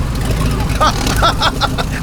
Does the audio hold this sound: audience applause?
no